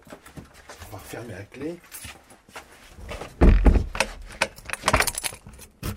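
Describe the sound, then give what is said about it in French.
A sliding cupboard that hides an armoured door is moved, with metallic jangling, rattling scrapes and dull thumps. The loudest burst comes midway, and a voice is briefly heard. “On fait coulisser le placard qui dissimule la porte blindée.”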